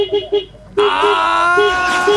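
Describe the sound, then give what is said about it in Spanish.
A vehicle horn sounds a long, loud, buzzing blast that lasts to the end, after a few short, low tones. “Y aquí está mi bocina, amigo.”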